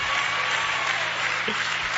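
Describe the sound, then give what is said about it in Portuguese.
Applause at a church service, offered for Jesus: a brief, steady wash of clapping hands sustained at an even level for about two seconds. “Em nome de Jesus Cristo, pode deixar, e as palmas para Jesus.”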